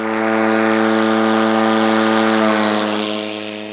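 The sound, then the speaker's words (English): A military drone's propeller engine buzzes as the drone takes off from a trailer-mounted catapult. The steady, loud, harmonic drone holds for about three seconds, then begins to fade. “What you got to see here today was actually probably one of the smoothest takeoffs I've seen, probably ever.”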